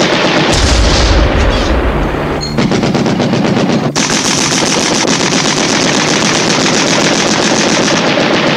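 Anti-aircraft gun fires short bursts at a plane: loud, dense, rapid reports run almost continuously, with brief breaks between volleys.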